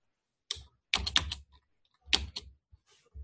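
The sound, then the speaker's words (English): Typing on a computer keyboard, bursts of crisp key clicks separated by short pauses, with soft, irregular keystroke rhythms and a few isolated taps toward the end. “I can just type today.”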